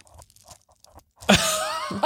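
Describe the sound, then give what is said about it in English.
Beads being rubbed together, a crunchy, gritty rattling that starts abruptly after a quiet stretch and continues steadily to the end. “It sounds like balls. Ooh, beads are rubbed. So soothing.”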